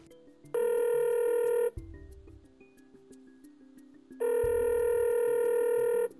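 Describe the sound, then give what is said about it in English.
A telephone ringback tone on an outgoing call sounds in two long, steady electronic rings separated by a pause of about two and a half seconds. “Should I call him? Dial him up.”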